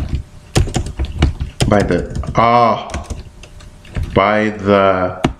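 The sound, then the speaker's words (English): Keys clack on a laptop keyboard in quick, uneven taps while a person talks over the typing in short stretches. “I can't type on this computer because this is a different laptop than my work life laptop.”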